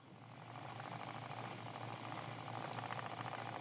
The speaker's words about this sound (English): Well, now that you mention spinning, we've heard a loom. What about a spinning wheel?